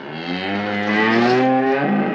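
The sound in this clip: A cow moos in one long, steady call of about two seconds. The call is loud, full and rich in harmonics, with no other sounds or voices around it.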